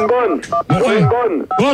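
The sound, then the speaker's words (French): Telephone keypad tones come from someone playing with a phone, in short bursts of beeps nearly buried under loud, continuous voices talking over them. “Là, il y en a un qui s'amuse avec un téléphone et j'aime pas ça.”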